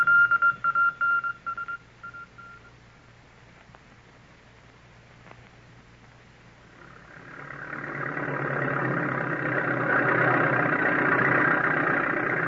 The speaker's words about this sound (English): Let me watch that bulldozer at work. See how it takes up the trees.